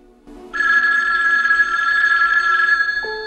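A telephone rings in a dark bedroom at night, one loud, steady electronic ring that sustains for a few seconds with no talk over it.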